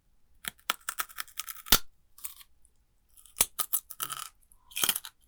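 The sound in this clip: Chewing of salt-flavored food, heard alone as faint crunchy bursts in irregular clusters with short pauses between them.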